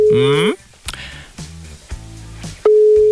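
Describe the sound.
A telephone line tone sounds during a radio station's call to a listener: a short chiming, warbling tone at the start, then a brief quieter stretch, then a loud, steady single-pitched beep that holds to the end.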